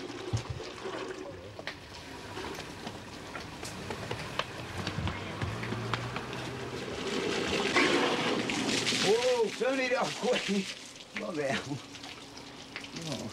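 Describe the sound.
Water gushes and splashes from a hose pipe as a container is filled, a steady rushing hiss that swells louder partway through, with people talking over it.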